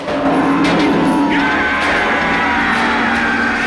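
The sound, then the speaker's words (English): A game show's studio audience cheers wildly, with loud, continuous whooping, yelling and crowd roar that holds at full volume throughout. “The studio audience go wild.”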